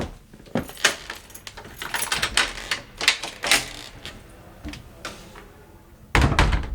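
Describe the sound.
An apartment door being worked: a long run of metallic clicks, rattles and jangles like keys and a lock, then a loud heavy thud at the end.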